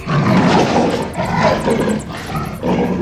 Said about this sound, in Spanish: Tengo garras. Tengo manchas en la piel. Soy un jaguar.